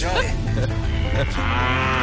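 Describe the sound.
A cow moos in one long, loud, drawn-out bellow lasting about two seconds, with a rough, buzzing low tone and a strong, steady sound throughout; no talk.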